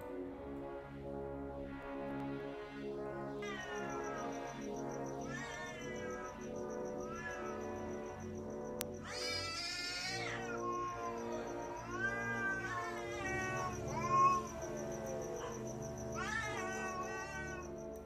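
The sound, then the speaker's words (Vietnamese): A cat meows mournfully in the distance, a long run of many faint, drawn-out wailing meows that bend up and down in pitch, with no talking. “Chỉ có ở xa xa có tiếng mèo kêu nghe đến não nề.”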